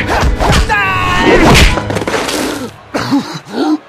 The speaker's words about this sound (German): ein gezielter Tritt die Waffe aus der Hand schlug und eine Folge von Hieben gegen seine Brust ihm die Luft aus den Lungen trieb